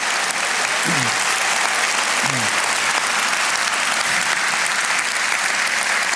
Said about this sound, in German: Nochmal einen Riesenapplaus fürs Gürzenich-Orchester, dankeschön.